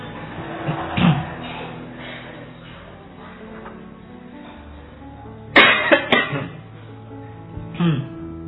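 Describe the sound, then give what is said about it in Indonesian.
People cough in a coughing contest during a talk. A few separate coughs are spread across a low murmur, with a sharp clatter near the middle. “Ayo lomba batuk.”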